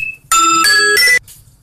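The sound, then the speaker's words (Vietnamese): Alarm clock going off in the middle of a spoken recording: a loud electronic chime of three bright tones in quick succession, lasting about a second before cutting off abruptly. “xin lỗi các bạn, cái chuông reo báo thức của Thi nó kêu cho nên đang nói tự nhiên nghe cái cũng hết hồn đó.”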